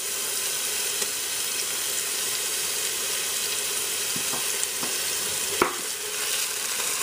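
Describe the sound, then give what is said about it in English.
Tomato paste fries with ginger and garlic in a pan, giving a steady, dense sizzle throughout, broken by a few faint clicks of stirring, with no voices. “It already smells really good in here with the ginger and the garlic and the tomato paste cooking.”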